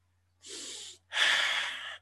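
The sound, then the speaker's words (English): A person breathes deeply, with two breaths heard alone: a shorter, softer rush of air, a brief pause, then a longer, louder breath with a breathy, airy hiss. “All right, now you breathe properly.”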